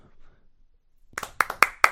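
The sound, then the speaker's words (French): A few sharp hand claps in a steady rhythm, given during a trophy presentation, following a second of near silence and rising in loudness toward the end. “mais là, c'est des applaudissements sincères pour une fois dans nos trophées.”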